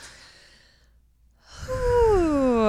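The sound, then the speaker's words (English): A group taking a deep yoga breath: a soft breathy inhale, a short silence, then a long, louder voiced sighing exhale whose pitch slides downward. “Let's all take a, let's take a breath. Deep ready? Yoga breath.”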